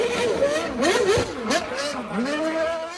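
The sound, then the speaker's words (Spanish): A Red Bull RB7 Formula 1 car engine roars during a demonstration run for fans. The loud, continuous note wavers as the revs repeatedly rise and fall. “Tan pronto como el icónico ruido del poderoso motor del RB7 rugió, en segundos Checo Pérez arrancó como bólido para complacer a sus miles de seguidores y lo hizo así.”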